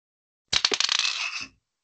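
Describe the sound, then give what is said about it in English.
A die rolled on a table during a tabletop role-playing game: a quick burst of rapid clattering clicks lasting about a second, then a short settling rattle before silence. “Well, let's roll a dice to see if you succeed.”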